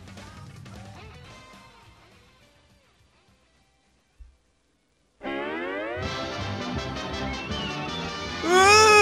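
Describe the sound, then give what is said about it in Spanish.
Baby crying sound effect: after a softer stretch that fades into silence, a loud, sustained infant wail bursts in with wavering, rising cries that continue to the end. “¡Sony! ¡Sony llora! ¿No? ¡Na-na-na-na-na-na! ¡Sony llora! ¡Sony llora! Pues Sony llora. ¿Cómo llora Sony?”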